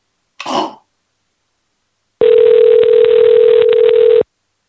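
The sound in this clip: Crackly telephone ringing: a single steady ring tone lasting about two seconds, overlaid with constant crackle and hiss, preceded by a short throat clearing.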